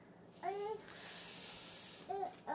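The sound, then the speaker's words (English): A toddler makes two brief, faint vocal sounds in the background, a short babble near the start and another near the end. A steady soft hiss fills the gap between them. “Sorry if you hear our toddler in the background, by the way.”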